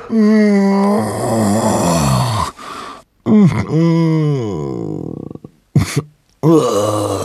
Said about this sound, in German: Es klang wie ein Stöhnen, ein Ächzen, langgezogen und auch ein bisschen mitleiderregend.